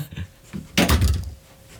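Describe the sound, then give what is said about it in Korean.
A front door opens, with soft low knocks first and then a sudden broad rattling burst that lingers for about half a second before dying away. “장영호는 현관문을 열었다.”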